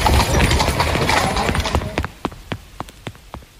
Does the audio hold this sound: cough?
no